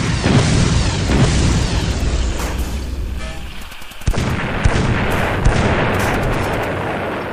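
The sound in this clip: Artillery guns firing in a barrage: a loud, dense, continuous roar of overlapping booms, with a few sharper blasts standing out partway through.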